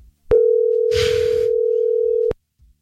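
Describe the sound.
A telephone dial tone, a single steady mid-pitched hum lasting about two seconds, opens and closes with sharp clicks, with a brief hissing burst over its middle.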